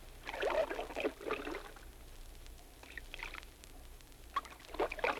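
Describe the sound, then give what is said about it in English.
Water swishes and splashes from a fisherman quietly paddling a canoe, with a few soft, irregular paddle strokes separated by calm pauses, faint and alone. “That was the sound made by a fisherman quietly paddling a canoe.”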